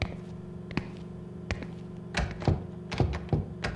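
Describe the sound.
Locked cellar door being tried, giving a series of dull thunks and knocks at irregular intervals that grow a little louder and more frequent toward the end.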